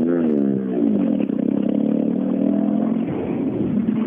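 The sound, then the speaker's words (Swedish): Engine of a Volvo 940 rally car coming down a rally stage: a loud, harmonic engine note that drops in pitch early on, then settles into a steady, rough drone. “Och 940 på väg ner. JK Racing Team kommer ner.”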